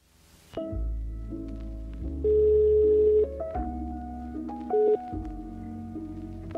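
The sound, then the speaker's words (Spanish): Ringback on an outgoing phone call that goes unanswered: a steady synthetic melody of sustained electronic tones that step between pitches, with two brighter, louder notes partway through. “No contesta, la llamo una vez más.”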